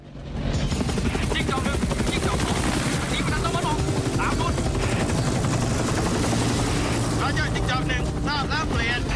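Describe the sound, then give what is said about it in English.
Helicopters lift off and fly low over jungle, filling the scene with a loud, constant rotor chop and engine roar that holds steady throughout. “Soong's choppers take off. Billy flies just above the jungle, passing over the wreckage of the plane he crashed.”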